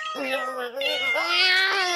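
A male cat meows in one long, rising and wavering yowl, loud and strongly tonal with a brief dip midway, then climbing higher and holding to the end, with no talk over it.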